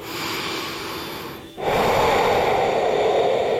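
A single breath drawn in through the nose and mouth, a breathy airy rush that dips briefly midway, then swells louder and holds steady to the end.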